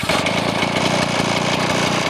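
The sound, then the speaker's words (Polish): An old 1960s Austrian two-stroke engine, 250 cc and 9 horsepower, runs on a garden tractor fitted with a reel mower. It keeps up a loud, steady, buzzing chug of rapid pulses without pause. “No nie brzmi jak traktor. Brzmi bardziej jak MZ-a. Jest to silnik dwusuwowy o pojemności 250 cm i mocy 9 koni. Stara jednostka austriacka z lat 60.”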